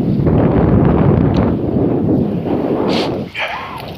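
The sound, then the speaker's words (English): A north wind gusts ahead of a cold front, a loud, continuous rushing roar buffeting the microphone that eases only slightly toward the end. “Dies down, a bit of a gust. It's coming straight out of the north.”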